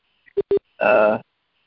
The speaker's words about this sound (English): Oh, the beeping. Oh no, it's still going.